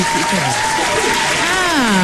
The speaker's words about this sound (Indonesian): Tepuk sikit.